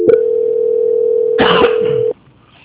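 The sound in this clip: A telephone line tone heard while a call is transferred: one steady, mid-pitched tone holds for about two seconds, a brief rustling burst cuts in near its end, and then the tone stops abruptly into near silence.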